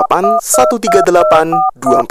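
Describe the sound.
Telephone keypad dialing tones sound as a phone number is entered, a quick series of short, steady electronic beeps interleaved with a voice.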